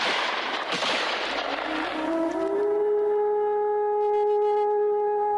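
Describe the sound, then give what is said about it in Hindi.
A hail of gunfire bursts out as a dense, crackling wall of loud noise for about two seconds, then gives way to a steady sustained ringing tone. “कप्तान के मरते ही वृद्ध पर गोलियों की बौछार हुई।”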